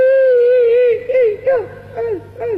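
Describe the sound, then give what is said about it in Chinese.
Crying imitated by a performer with the face hidden behind a sleeve: a sustained, wavering wail gives way to about four short sobbing cries, each dropping in pitch, fairly loud and with no other voices. “哦，这也是哭， 这就是哭。”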